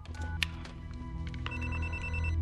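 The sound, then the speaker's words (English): An office telephone rings unanswered, giving a steady electronic ring with sustained tonal harmonics over a low background hum, with a few sharper bursts near the start. “As the phone in Bill's office rings and he ignores it, Karen's face contorts in desperation.”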